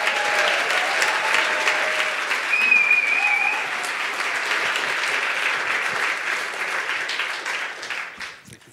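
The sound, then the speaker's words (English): Audience applause welcoming a speaker to the stage at a church baptism service: a dense, steady clatter of many hands that holds strong for about eight seconds, then tapers off and thins out at the very end. “I want to put your hands together and welcome Alex to the stage”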